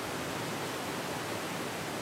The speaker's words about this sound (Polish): mamy efekt, woda właśnie w śluzie napełniana jest.